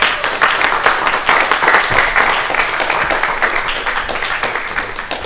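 Congregation applause giving a warm welcome to a guest pastor about to preach. Loud, crisp clapping with individual claps audible in the mix stays strong through the first half, then gradually softens.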